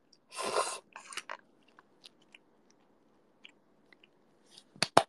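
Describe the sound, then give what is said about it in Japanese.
Someone chews and bites into warm food with the air conditioner running: a loud crunchy bite at the start, sparse soft clicks of chewing, then a cluster of sharp crunches at the end. “おいしい。ちょっと冷房つけながらあったかいものを食うのちょっと犯罪じみてていいな。”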